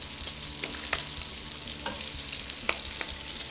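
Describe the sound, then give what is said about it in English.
A spoon stirs food in a pan over heat. Steady sizzling and frying run throughout, with scattered light scraping clicks from the spoon and no voices. “we got to grab that spoon again, wherever that ran off to. And start stirring that, please.”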